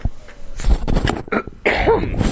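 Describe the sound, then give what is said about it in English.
A person clears their throat in a few rough, raspy bursts, loud and alone with no talk around it. “Had to clear the throat there.”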